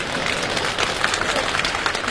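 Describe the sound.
Audience applause at a comedy stage show: dense, steady clapping that carries on without a break for the whole stretch.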